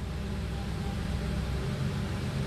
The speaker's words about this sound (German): Das ist ein Porsche 911.